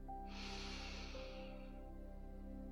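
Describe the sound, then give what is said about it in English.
A single slow inhaling breath drawn in softly with an airy hiss, lasting a little over a second, over a faint steady hum. “Inhale.”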